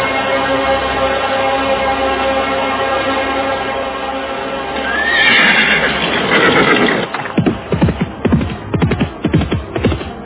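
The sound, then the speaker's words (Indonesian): A horse being ridden lets out a loud neigh midway, over a sustained tonal drone, followed by a run of sharp, irregular thumps toward the end. “pacu terus kuda ini.”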